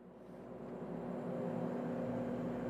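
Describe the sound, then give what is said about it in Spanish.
Steady low engine drone of a large construction machine being driven, a continuous rumbling hum that grows slightly louder and then holds even, with no voices. “Pero tiene su encanto conducir una maquinaria de construcción tan grande, ¿no? Estás aquí sentado así.”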